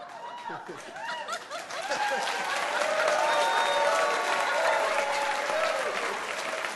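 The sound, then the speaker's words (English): A smattering of audience applause for a guest on stage, light scattered clapping mixed with voices, steady and moderate in level and swelling slightly partway through. “So, that was worth a smattering of applause.”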